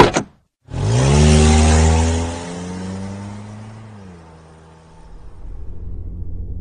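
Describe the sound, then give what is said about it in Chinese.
A car setting off: the engine rises into a loud, steady rumbling drone, then eases to a lower, quieter hum as the car moves away. A brief click is heard just before the engine sound begins. “就开这辆吧。大伟关上后备箱，他走到副驾驶，打开车门坐上去，大伟也赶紧上车出发。”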